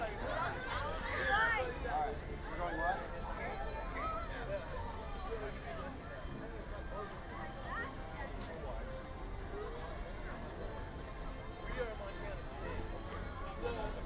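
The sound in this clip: Crowd ambience in the walk-in area of Space Mountain: a steady, dense babble of many overlapping voices and footsteps that stays at an even level throughout, with no single voice standing out.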